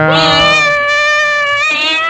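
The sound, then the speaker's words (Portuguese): Cat meowing: a loud, drawn-out, tonal meow that holds steady for about two seconds, with no talk over it. “Cadê os gatos? Cadê os gatos? Ah, os gatos, os gatos, os gatos, os gatos.”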